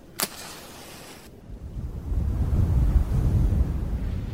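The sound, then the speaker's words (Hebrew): A strong gust of wind strikes hard enough to blow out a candle. It begins faint, then swells into a steady, low, rushing roar that stays loud to the end. “רק סיימתי את דבריי, רוח חזקה באה וחיבתה לי את הנר.”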